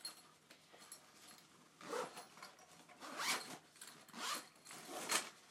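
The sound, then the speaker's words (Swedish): Zipper on a ukulele case being pulled open in a few drawn-out rasping strokes with short pauses between them, fairly soft and with no talk. “Här är fodralet. Ska vi se. Ska vi öppna.”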